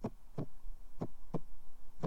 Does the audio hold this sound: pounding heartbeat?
yes